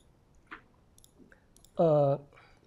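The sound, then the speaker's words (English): Computer mouse clicks while selecting points on a plot: a few faint, sharp clicks spaced apart, with a short voiced sound breaking in near the end. “So I will right click the plot and get coordinate. So I'm going to click a few points”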